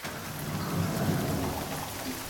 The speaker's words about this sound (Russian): Опять дождь?